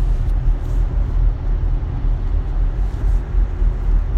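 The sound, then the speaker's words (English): Steady low rumble of a car being driven, heard from inside the cabin, a constant droning road and engine noise with no one speaking. “I'm driving, I'm podcasting, so forget it.”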